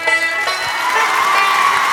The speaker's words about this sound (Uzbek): Muxlislarimiz qarsaklari bilan qani ketdik.